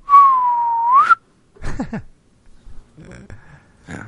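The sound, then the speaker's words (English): A slide whistle zooming effect: a single sustained whistle tone that sags slightly, then sweeps sharply upward at the end. A few scattered clattering noises follow. “I hear that whistle sound just zoom. Like a like that little kazoo, not kazoo, but that little like one that you pull and you pull it back up.”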